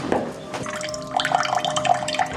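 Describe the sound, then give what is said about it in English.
Cold water runs from a kitchen faucet on a troubled supply that carries sediment, giving an uneven, spluttering splash with a few sharp drips and a faint steady tone underneath. “This is my cold water pressure in the kitchen.”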